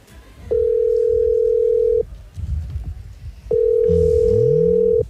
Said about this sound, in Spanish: Está llamando. A ver si lo coge.